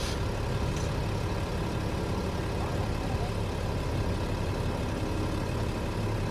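A car driving along city streets gives a steady low engine drone with road rumble, constant and unbroken in loudness throughout.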